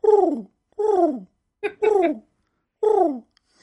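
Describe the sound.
A human voice imitates a pigeon cooing, giving four drawn-out, falling coos with a brief clipped note before the third, separated by short silences.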